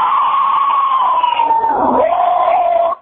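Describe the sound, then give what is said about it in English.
A caller imitates a zombie screech: one loud, raspy shriek held for about three seconds. Its pitch slides slowly downward, breaks briefly, then steadies before it cuts off. “That was some classic Zack Snyder Dawn of the Dead remake zombie screeching”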